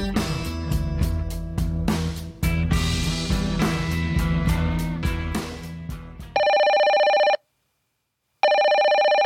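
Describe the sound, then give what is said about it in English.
An incoming call rings a telephone after several seconds of music: two long, steady electronic ring bursts separated by a short silent gap, loud and alone once the music stops. “It looks like we have a caller.”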